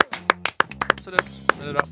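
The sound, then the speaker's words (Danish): A couple of hosts clap briefly for a slalom winner, quick, uneven claps with people talking over them. “så bare vi skal klappe for han”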